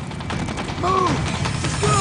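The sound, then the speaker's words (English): Gunfire from a movie chase scene, a few sharp shots among film dialogue and music, with people talking over it. “Okay, he got shot. Oh my God, they hit him.”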